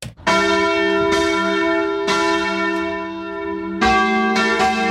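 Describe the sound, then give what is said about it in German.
Church bells ring in several loud, resonant strikes at an uneven pace, each bright metallic clang leaving a long humming tail that overlaps the next. “Wenn Sie wissen, wo die Glocken genau so klingen, dann sind Sie schon gut unterwegs.”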